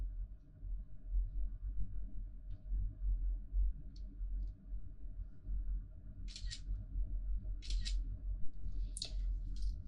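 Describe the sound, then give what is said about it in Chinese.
A camera snaps photos for sampling during a forensic body examination. A few crisp, high shutter clicks stand out, mostly toward the end, over a constant low hum and faint lighter ticks. “接下来进行拍照取样”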